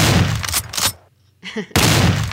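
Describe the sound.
Shotgun blasts at skeet shooting, loud booming bursts in quick succession, broken by a short quiet gap before another heavy round of firing.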